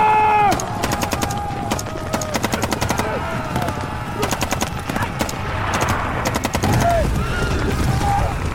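Rapid gunfire volley as mounted fighters open fire in a battle scene: many sharp, overlapping shots in dense bursts over a rumbling background, with shouts mixed in.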